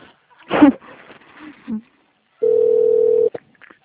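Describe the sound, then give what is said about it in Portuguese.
Telephone busy signal on a call to an extension, a single steady mid-pitched tone lasting under a second, preceded by brief voice fragments. “Tentando ligar. O ramal está ocupado.”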